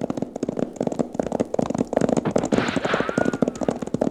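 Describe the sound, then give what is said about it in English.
Gunfire from a gun battle crackles in dense, overlapping bursts, with many sharp loud shots rattling in quick irregular succession and no pause throughout. “There are some shots, the kind I was talking about. Now get your knee unhooked from that saddle horn and let's start making tracks. Sounds like a regular gun battle.”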